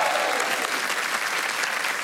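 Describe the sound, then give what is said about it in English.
Loud, steady audience applause welcoming guests onto a show, a dense even wash of clapping heard alone and sustained throughout. “you need to put your hands together again”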